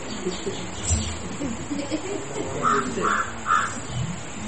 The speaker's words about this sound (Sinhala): කාක්කෙක් කෑගහනවා නේද? කොහෙද කාක්කා ඉන්නේ?